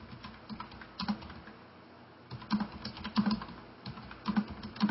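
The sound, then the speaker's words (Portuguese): A note is typed on a computer keyboard during a sermon, with quiet clusters of key clicks, a pause of about a second, then livelier bursts of tapping. “Deixa eu escrever aqui.”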